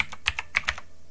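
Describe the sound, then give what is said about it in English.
Typing on a computer keyboard: a short burst of several quick keystrokes with light, crisp clicks at uneven spacing, then a brief pause. “Let's try this again. And let's, something went wrong. Let's type in, let's type in”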